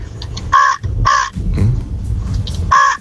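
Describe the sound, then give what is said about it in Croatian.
A man imitates a crow, giving a few loud, harsh, nasal caws in short separate bursts with gaps between them, over a low background rumble. “rekao da može super oponašati Vranu, pa evo još jednom.”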